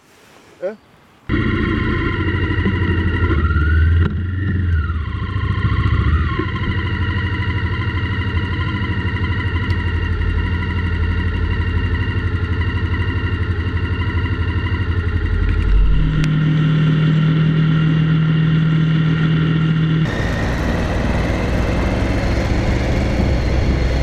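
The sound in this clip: A car engine runs continuously as the car leaves after breakfast, a loud, steady drone with a tonal hum that holds throughout and shifts character twice toward the end.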